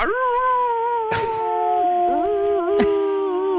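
Wolves kept in an apartment howl in several overlapping, drawn-out tones that waver and slide in pitch, broken by two brief sharp bursts of noise.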